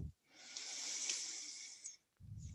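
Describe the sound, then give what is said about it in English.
A single long inhale is drawn in during a guided yoga session, a soft, airy hiss that swells and fades over about a second and a half, alone and faint. “Pause here, have a breath.”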